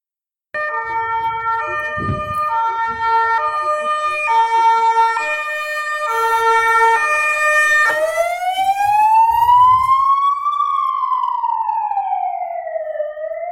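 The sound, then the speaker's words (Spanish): Loud ambulance siren in a street in Segovia, Spain. A regular two-tone high-low alternation repeats for several seconds, then switches to a smooth wail that climbs slowly and falls again, with no voices over it. “pues hay ambulancias en Segovia.”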